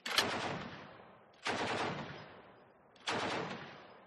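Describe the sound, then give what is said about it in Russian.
Heavy KPV machine gun firing short bursts from a river boat's open bridge at moored boats: three loud, sharp blasts, evenly spaced, each with a long fading tail, and no voices. “Короткие очереди КПВ разносили в щепки три хозяйские катера, поставив крест на возможной погоне по реке.”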